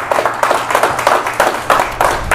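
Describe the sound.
A church audience applauds to welcome a speaker during a morning service, with dense, steady clapping that pulses in a regular beat throughout.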